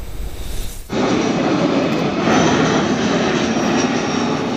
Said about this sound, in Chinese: 厦门高崎机场的到达大厅，成为全球商界精英们的第一站。